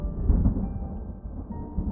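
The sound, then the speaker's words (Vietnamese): A deep, rolling thunder rumble as a storm suddenly breaks, low and continuous across two seconds with a swell in loudness early on and no distinct rain. “trời đột nhiên nổ một tiếng sấm lớn, bắt đầu chuyển mưa”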